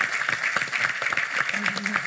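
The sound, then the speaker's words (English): Applause from a conference audience welcoming the CEO of a Hong Kong challenger bank onto the stage in London, a steady patter of clapping for about two seconds, with a voice briefly audible in the final stretch. “So give a round of applause and a welcome to Dennis Govan, who is the CEO of one of the challenger banks that Standard Charter is doing in Hong Kong.”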